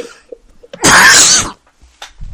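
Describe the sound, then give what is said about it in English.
A single loud, harsh cough bursts out in one short blast, framed by faint breathing and quiet stretches on either side. “I got to do something about this cough.”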